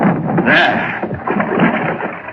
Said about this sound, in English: Yes, I think it opens the sluice, starts the mill wheel turning.